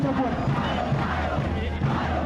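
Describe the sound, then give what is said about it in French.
A protesting union crowd chants for a general strike, many voices calling out together in a loud, sustained, rhythmic roar with a dense low murmur beneath. “Dans la foule, les chants appellent à la grève générale.”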